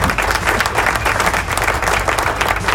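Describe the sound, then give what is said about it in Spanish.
Canned crowd applause used as a sound effect: dense, steady clapping with crowd noise and a low rumbling bed beneath, loud and continuous throughout. “Tíralo ahí los aplausos.”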